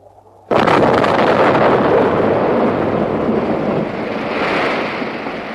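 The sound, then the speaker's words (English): A dam blown up with explosives: a sudden, very loud blast breaks a quiet moment, then a dense, broad roar holds for several seconds and slowly eases. “The dam's gone! Did you see that? It's gone! We've blown the dam!”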